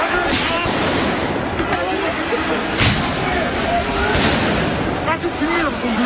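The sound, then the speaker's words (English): Police fire tear gas at protesters in central Paris during violent clashes that grew out of student demonstrations; a few sharp bangs punch through a dense, steady roar of crowd noise and shouting. “You can hear the sound of police firing tear gas to clear protesters.”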